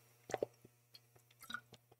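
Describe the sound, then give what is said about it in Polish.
Quiet, wet sipping and swallowing as someone drinks water in a spa hotel in Busko-Zdrój: a few soft clicks and squishes over a faint steady hum. “W związku z czym napiję się z tobą wody.”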